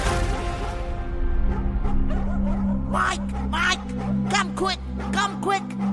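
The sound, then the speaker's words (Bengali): Dog barking in a series of short, sharp barks and yips that grow more frequent, heard over a low, steady droning background. “ব্রাউনের গলা ভেসে এলো, কুকুর ডাকছে কেন?”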